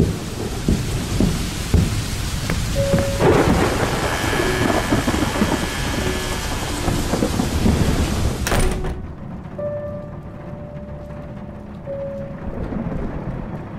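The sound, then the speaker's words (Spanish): Heavy storm rain gusting in through an open window, with low rumbling thunder beneath a loud, steady hiss. The rain noise cuts off abruptly partway through and continues quieter and muffled to the end. “Otra vez tormenta.”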